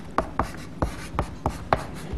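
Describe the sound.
Chalk writes on a blackboard during a lecture, a series of sharp, uneven taps and short scrapes as the chalk strikes and drags across the board, with no voices.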